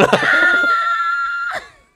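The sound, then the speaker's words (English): A person screams away from the microphone in one loud, high-pitched, sustained cry lasting about a second and a half. It is followed by a brief breathy burst before it cuts off. “I screamed away from the mic.”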